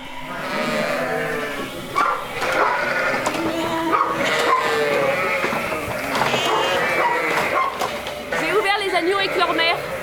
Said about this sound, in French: Chacune appelle son agneau et l'agneau appelle sa mère pour qu'ils arrivent à se rejoindre.